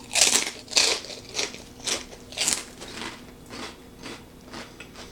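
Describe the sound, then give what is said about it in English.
Someone bites and crunches a Brim's barbecue-flavor snack, making a series of sharp, crispy cracks. They are loudest in the first bites and grow softer as the chewing carries on, with no talking. “All right, let's get a big one here. So here we go. Brim's barbecue flavor. 3, 2, 1. Taste test.”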